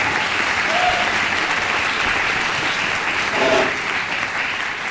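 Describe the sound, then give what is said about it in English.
Audience applause at an informal evening event honouring a departing newspaper colleague: dense, sustained clapping that stays fairly even for five seconds and swells slightly past the midpoint. “So, first of all, a round of applause for Jack Oman.”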